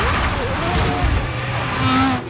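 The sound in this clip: A race car runs off the track and onto the grass during a race in Australia. A continuous engine whine with rough tyre noise and a high tonal squeal, fairly loud throughout.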